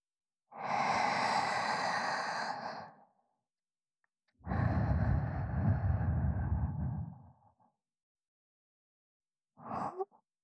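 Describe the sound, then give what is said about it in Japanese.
Deep breaths taken to calm nervousness: two long, soft, airy breaths of a few seconds each, then a brief, short breath after a pause, all quiet and with no talking. “始める前に一度深呼吸して気を落ち着かせますから”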